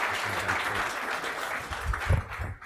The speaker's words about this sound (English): So let's give a big hand for Brad Johnson.